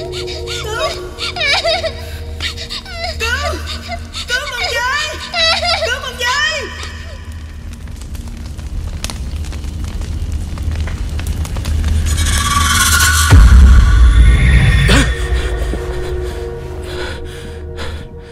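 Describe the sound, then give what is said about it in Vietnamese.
Children wail and cry beside a burning fire. Many shrill rising and falling cries come early, a low roar runs underneath, and a louder noisy burst follows later. “tiếng của lửa cháy, cả tiếng khóc thảm thiết của trẻ con”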